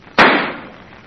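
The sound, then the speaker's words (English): A gunshot sound effect from a radio drama: one loud, sharp bang with a quick, crackling decay, heard alone. “Now we got nothing to worry about, Red. Two bullets right through his head.”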